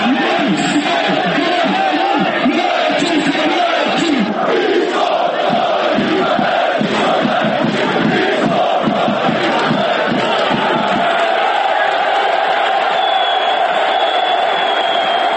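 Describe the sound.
Football supporters in the south stand of a stadium chant in a loud mass of voices that pulses rhythmically for about ten seconds, then settles into a steadier, continuous roar.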